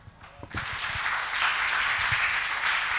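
A church audience applauding: after a quiet moment with a few stray claps, dense clapping swells in and keeps up at a steady, moderate level, with a few low thumps beneath.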